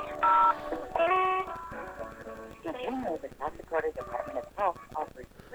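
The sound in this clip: A telephone keypad tone sounds as 0 is pressed in an automated phone menu for a long-term care and Medicaid office. A loud steady beep is followed by a second tone, then a voice talks.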